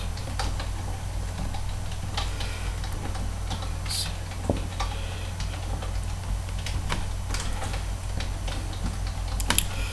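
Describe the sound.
Keys tapped on a computer keyboard while an email address is entered into a registration form: many soft, irregular clicks over a steady low hum, with no voices.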